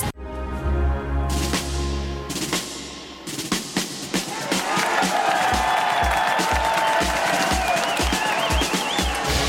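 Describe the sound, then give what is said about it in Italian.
Crowd noise from a tennis audience on Centre Court at the All England Club in London, home of The Championships: a loud, continuous din of many voices with cheering that holds steady to the end. “Il pubblico che sentite in sottofondo si trova a Londra. Per la precisione, Destini Incrociati oggi si immerge nell'atmosfera del campo centrale dell'All England Club, sede da oltre 100 anni dei The Championships”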